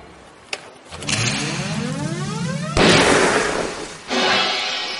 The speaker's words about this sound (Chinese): 你开枪了？